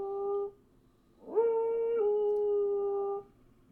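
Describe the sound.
Two drawn-out tonal frog calls, fairly faint: a short note followed by a longer, steady, whistle-like call with rich harmonics that ends abruptly.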